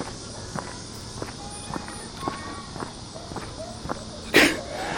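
Footsteps of someone on a morning walk during a work break, moving quickly away from a house; many evenly paced steps in a steady rhythm, with a brief louder burst near the end.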